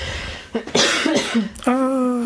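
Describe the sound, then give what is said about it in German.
A person coughs a few times in short, rough bursts, followed by a steady voiced hum with no other sound around it. “Ich werde jetzt husten, das ist kein Corona.”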